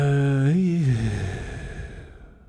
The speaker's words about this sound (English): Take a breath. We'll take one together. Let's do it. Deep as fuck breath.